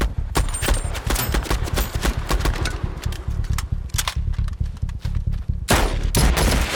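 Covering fire rattles in dense bursts of rapid gunshots, many sharp cracks overlapping almost without pause, with a heavier volley near the end.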